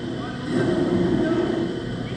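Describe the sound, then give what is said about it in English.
A hot air balloon burner jets flames while a ground crew inflates the balloon, a broad, steady roar that swells after about half a second and holds loud to the end. “Flames jet out of the burner as a ground crew inflates a hot air balloon.”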